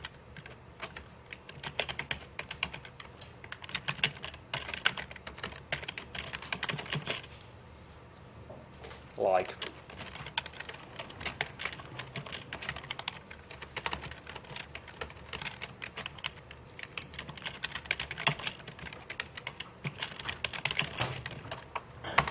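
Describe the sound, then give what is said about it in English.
Typing on a computer keyboard during a lecture, with quick, irregular clicks and taps that run steadily and fairly faintly throughout and pause briefly near the middle. “This is basically simplest example I can type during the lecture.”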